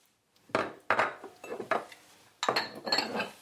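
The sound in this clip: A whisk beats egg white and fruit puree in a bowl, giving faint, irregular bursts of clattering and scraping. A few quick strokes are followed by a short pause, then more.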